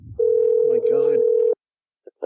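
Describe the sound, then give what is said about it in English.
Steady telephone tone sounds after a call suddenly disconnects. It holds evenly for about a second and a half with a voice talking over part of it, then stops abruptly. “I don't know why the phone just suddenly disconnected.”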